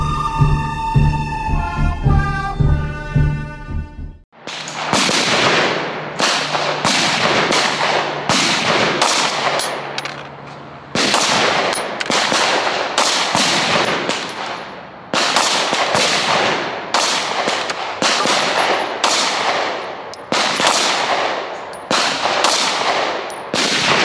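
Gunshots at a shooting range, a pistol compared against a concealed-carry Smith & Wesson M&P Shield 2.0: many sharp, loud bangs in quick, irregular succession, following a few seconds of music.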